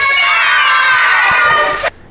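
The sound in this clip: Children from an after-school class shout together in a recorded bumper. Their high, excited voices form one loud, sustained cheer that cuts off abruptly near the end.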